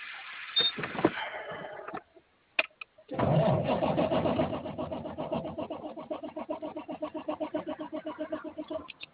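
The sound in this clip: A car engine cranks on its starter while the battery is reported dead, giving a long run of rapid, rhythmic, chugging pulses that stay loud and steady for several seconds.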